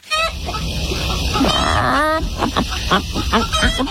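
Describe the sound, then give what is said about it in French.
Chickens clucking inside a henhouse at a poultry centre, a busy stretch of cackling with a drawn-out squawk followed by a run of short, rhythmic clucks. “Qu'est-ce qui se passe dans un poulailler Nous avons pu nous y rendre.”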